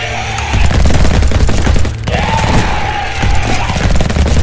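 Rifle gunfire as several people shoot at a huge charging creature: dense, rapid overlapping bursts of loud shots fill the whole stretch, with a brief lull near the middle before firing resumes.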